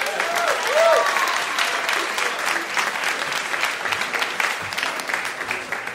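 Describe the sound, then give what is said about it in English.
Audience applause welcoming an astronaut guest onto a comedy show, a steady wash of clapping that holds for several seconds, with a voice heard briefly near the start. “Would you please give a warm hand to Mike Massimino?”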